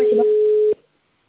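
A telephone line tone during a call transfer: one steady, mid-pitched tone held for under a second, then cut off by a click and followed by silence.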